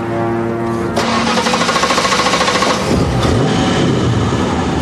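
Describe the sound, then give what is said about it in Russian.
A taxi pulls away sharply up a road over a hill, its engine bursting into a loud, rough revving roar after about a second and holding strong with a shifting, throbbing pitch. “Резко тронувшись, машина такси поднимается по идущей через холм дороги.”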